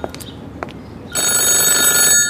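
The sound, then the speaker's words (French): A telephone rings with an incoming call: a loud, steady, high electronic tone begins partway through and holds to the end with a brief dip near the close, after a few soft clicks. “T'as un appel”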